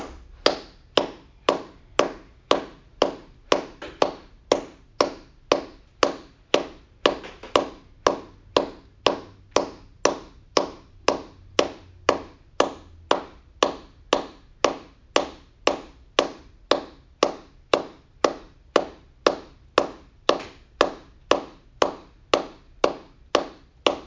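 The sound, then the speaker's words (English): Hand claps during an exercise class keep a steady, brisk rhythm, many sharp even slaps repeating at an unchanging pace with no talking over them. “I clap my hands.”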